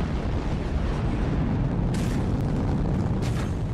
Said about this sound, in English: And on the count of three, the three pilots fired their retro rockets and backed off from White Ball.